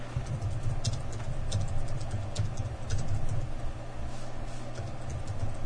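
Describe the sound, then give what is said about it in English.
Keys click on a computer keyboard as someone types, a fairly faint, rapid and irregular patter over a steady low hum. “I'm trying to think and talk and type at the same time.”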